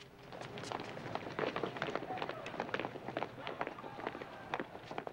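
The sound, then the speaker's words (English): Prisoners descending caged steps to an exercise yard: many quick, overlapping footsteps in a busy, steady shuffle, fairly faint throughout. “The inmates descend caged steps down to the exercise yard.”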